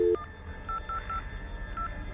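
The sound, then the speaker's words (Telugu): Keypad dialing tones from a telephone call to the electricity office: a handful of short, clean electronic beeps at a steady mid pitch, separated by brief gaps, over a faint background hiss. “Current ఆఫీస్కి call చేసి కనుక్కోగా”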